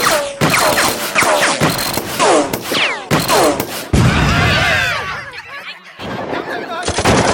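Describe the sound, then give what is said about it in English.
Gunfire erupts in loud, rapid bursts, with shrill shrieks overlapping the shots throughout and a brief lull before the firing resumes at the end. “Our bullets aren't stopping them. They can't even feel when we've shot them.”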